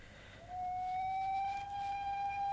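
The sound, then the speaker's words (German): A train whistle sounds from the railway station across the way. It is a single steady, high tone that begins after half a second and holds unbroken to the end, fairly faint over a low background hum. “Was pfeift denn da? Ah, drüben ist der Nordbahnhof.”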